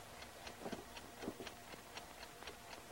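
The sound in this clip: An alarm clock ticks alone, giving many faint, crisp ticks at a steady, quick pace over a soft background hiss.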